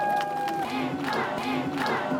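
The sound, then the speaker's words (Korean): A crowd cheers and shouts for a group of elderly folk-song singers at a street performance in a youth district. Several voices whoop and call out over a continuous crowd roar that is moderately loud. “우리 서산의 F4 어르신들 다시 한번 큰 박수 부탁드립니다.”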